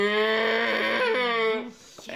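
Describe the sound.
A human voice imitates a cow's moo on a farm, heard during an evening comedy act: one long, low, drawn-out call that ends abruptly.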